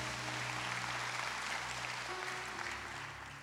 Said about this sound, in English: Can you give God a hand clap for that, huh?